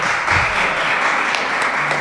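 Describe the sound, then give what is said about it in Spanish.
Applause after a poetry reading: a steady, dense wash of many clapping hands at a fairly loud, even level throughout, with no break or clear fade. “Un fuerte aplauso para”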